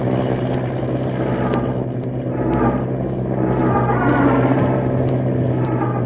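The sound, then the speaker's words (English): An early propeller airplane engine revs during a first powered takeoff attempt, a steady droning rumble with faint, regular ticking above it. The engine grows slightly louder over the second half. “Gaining speed now. The plane lurches. Wind tears in a rudder.”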